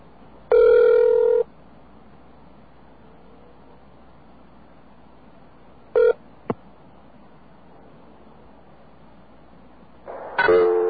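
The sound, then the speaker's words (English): Telephone tones from a long-distance operator service during a collect call: a loud electronic tone burst of about a second, then a brief tone with a sharp click, and a final tone starting near the end, all over faint line hiss. “Now, let's say you make a collect call on this service, just like we did with New York Telephone. This is what you will hear.”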